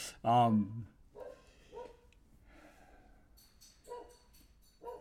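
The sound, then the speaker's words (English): Dogs in a home during a recording session, with one loud, harmonic bark near the start, followed by quieter, scattered sounds. “Sorry for the dogs. Unfortunately, I don't have a studio to work out of yet, so the dogs are part of the ambiance.”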